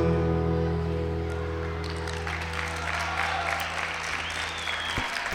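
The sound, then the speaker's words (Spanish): An audience claps after a live song at an event launching a radio app. The final sustained musical notes ring out and fade as steady crowd applause swells and continues to the end. “Muchas gracias por los aplausos.”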